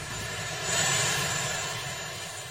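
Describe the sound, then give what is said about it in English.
A presidential helicopter lands, its engine giving off a steady roar with a thin, high whine on top, swelling slightly partway through and then easing back, with no voices. “That is Marine One landing.”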